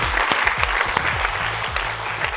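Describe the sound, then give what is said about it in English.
An audience applauds with dense, steady clapping that holds an even loudness throughout, with no voices standing out above it. “Round of applause”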